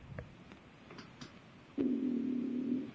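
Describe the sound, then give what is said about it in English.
Loud stomach rumbling: a sustained low, droning gurgle lasting about a second, preceded by a few faint clicks and taps. “Was that your stomach? That was my stomach. Wow. That was loud,”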